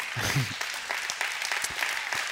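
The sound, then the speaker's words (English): Faint audience applause fills a church service, a steady patter of many hands that continues throughout. “The people that invested the money are the ones that are excited about clapping for it.”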